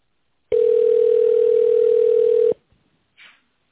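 A telephone ringing tone plays while a call is transferred to an operator: one loud, steady, mid-pitched tone of about two seconds that stops sharply, followed by a brief faint noise.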